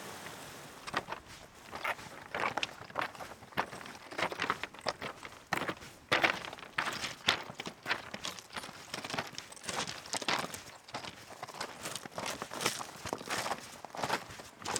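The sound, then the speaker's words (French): Footsteps cross a small footbridge over a stream in a mountain valley, a long run of firm thuds and scuffs at a steady walking pace, moderately loud and without talk. “Alors là, on passe la petite passerelle. Voilà, on change de rive, on traverse le cours d'eau de la coupe de Varilhes.”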